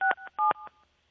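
Telephone keypad dialing tones sound as a quick run of several short, clear beeping tones of differing pitch. The last tone fades out, and no voices are heard.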